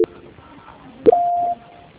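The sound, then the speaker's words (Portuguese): Telephone line tones during a call transfer: a click, then a second click followed by one short, steady mid-pitched beep lasting about half a second, heard faintly over a thin, band-limited line. “eu estou transferindo a ligação, tá? Transferência.”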